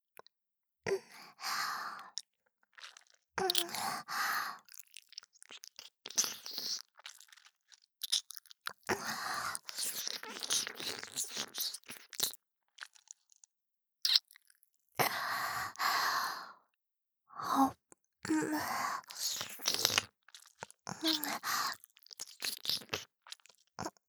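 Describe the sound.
Wet mouth sucking and smacking sounds close at the ear, many soft bursts in irregular clusters separated by short pauses, with no talk.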